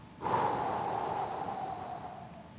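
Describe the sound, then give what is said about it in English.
A forceful, purposeful exhale as a person blows out air in a demonstration of breathing on others: one long, breathy puff of about two seconds, steady and fairly soft, tapering slightly at the end, with no talk. “or to puff or to breathe with a distinct purpose. It might have been something like this.”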